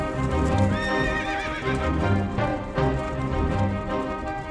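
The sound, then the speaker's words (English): Hooves of horses pulling a royal carriage at speed clip-clop in a quick, steady rhythm, with a high whinny near the start. “And as you can hear, we're speeding westwards in the royal carriage on a top-secret mission.”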